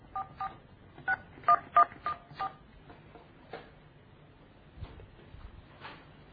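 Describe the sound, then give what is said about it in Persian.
Telephone keypad dialing tones as someone calls the Kalameh TV network: a quick run of short, crisp beeps comes first, then a few more scattered presses follow after pauses, each tone brief and clear against quiet hiss. “دیگه عزیزان بیننده خودشون شاهد باشن که ما داریم تماس میگیریم با شبکه کلمه.”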